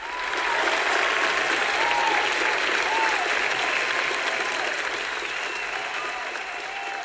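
An audience applauds to welcome a guest. The dense clapping is sustained and steady, with crowd noise, and eases slightly toward the end.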